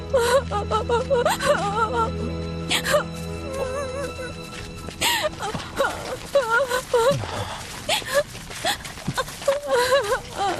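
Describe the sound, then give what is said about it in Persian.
A person crying, with wavering, whimpering sobs that come in uneven bursts throughout, some pitched high and quavering, others breathy and broken. “ببینم چی شده؟ چرا داری گریه میکنی؟”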